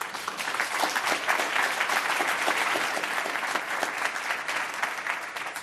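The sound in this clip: Applause from an audience welcoming a speaker onto the stage, dense and sustained, with many hands clapping steadily at an even loudness from start to finish and no voices over it.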